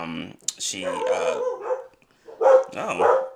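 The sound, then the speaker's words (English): Dogs bark and yip in short bursts mixed in with people talking over them. “guest starring my dogs. Yeah. They're rooting for Psylocke.”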